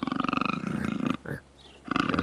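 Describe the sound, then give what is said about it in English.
A tiger's growl, from a recording of a college football mascot tiger, rumbles with deep, rough, pulsing texture. It breaks briefly in the middle, then resumes just as loud. “it's gonna be a tiger growl”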